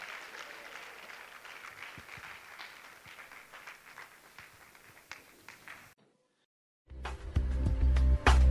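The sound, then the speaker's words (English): A church audience at a women's conference claps to welcome a women's choir. Faint, steady applause lasts several seconds, a brief silence follows, then loud music begins. “Can we put our hands together and welcome the women's choir to minister to us?”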